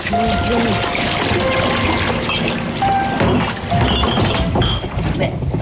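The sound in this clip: Liquid pours through a funnel into a bottle with a steady, continuous rushing gush that fills the whole stretch and stays at an even, fairly loud level.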